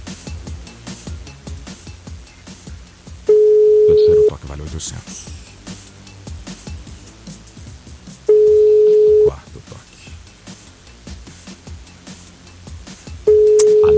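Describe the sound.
Telephone ringback tone while placing a call: a steady mid-pitched tone sounds in three separate one-second bursts, the last cut off at the end, with about four seconds of gap between them, where voices talk.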